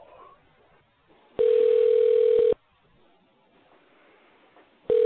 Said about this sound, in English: Here we go. Dial.